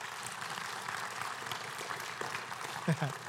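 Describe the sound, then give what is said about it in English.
An audience claps at a church conference session. The applause is faint and steady, a light spatter of hands throughout. “I didn't say that for you to clap.”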